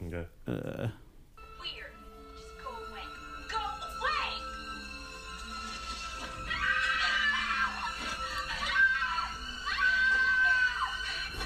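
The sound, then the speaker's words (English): A canned cartoon scream sound effect, the kind of shriek made on seeing a spider. A sharp burst opens it, followed by a run of high, wavering shrieks that grow louder toward the end. “So that's the noise you make when you see a spider. Right. Yeah, that's a cartoon noise. Like, yeah, it's a canned, it's like from like sound effects”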